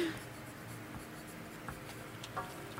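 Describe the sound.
A pen scratches softly on paper as someone writes down a name by hand, giving faint, steady strokes with a few slightly louder marks.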